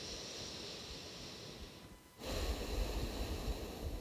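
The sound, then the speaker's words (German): Nasal breathing through the left nostril only, with the right nostril held shut: a soft, airy stream of breath, then a louder, rougher rush of air for the second half. No talking. “das rechte Nasenloch zu und atmest nur links ein und aus. Nur links ein und ausatmen.”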